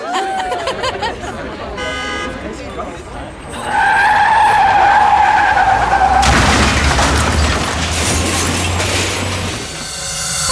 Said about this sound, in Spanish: Yo solo sé que iba en mi jipeta manejando, perdí el control, me desmayé y no sé qué está pasando.